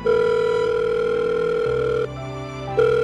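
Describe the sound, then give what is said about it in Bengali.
A mobile phone rings unanswered with a steady, loud electronic ringing tone held for about two seconds, then drops to a softer, shifting tone before the loud ring returns, no voices. “পিয়ালির ফোনটা বেজে বেজে থেমে গেল, কেউ ধরল না।”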